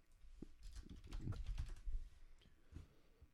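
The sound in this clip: Very faint typing on a computer keyboard, a soft irregular patter of key taps that thickens in the middle and thins out toward the end.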